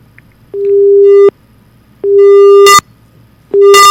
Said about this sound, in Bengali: না, ফোনটা কেটে গেল। শ্রোতা বন্ধু আরেকবার চেষ্টা করবেন, ফোনটা কেটে গেল।